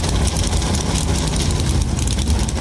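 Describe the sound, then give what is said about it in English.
NASCAR race car engines roaring to life on the pit lane as Navy Hornet jets pass overhead, a dense, loud, continuous rumbling roar that stays steady throughout. “The engines come to life on the pit lane as the Naval Hornets go blasting by overhead.”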